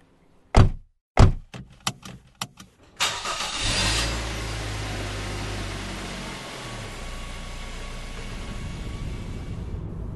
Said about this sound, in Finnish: Mazda hyrisi pehmeästi, renkaat nielivät asfalttia